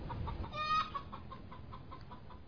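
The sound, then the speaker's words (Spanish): A hen clucks in a string of short, repeated clucks, fairly faint, with one louder, brighter call early on. “Comería los huevos que su gallina Martina puso”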